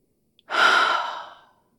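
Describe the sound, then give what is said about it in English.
A sleeping person breathes softly, one long, airy exhale that swells quickly and then tapers away, preceded by a tiny click; otherwise quiet. “I never knew that you made such cute little noises while you slept. Little sighs and the way you breathe.”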